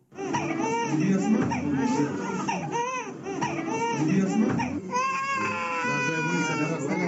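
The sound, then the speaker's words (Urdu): Babies cry while getting polio vaccine injections at a hospital in Quetta: several infants wail loudly and continuously, their high, strained cries overlapping and rising and falling throughout. “یہ رونے کی آوازیں ان بچوں کی ہیں جن کو civil اسپتال کوئٹہ میں پولیو سے بچاؤ کے ٹیکے لگائے جا رہے ہیں”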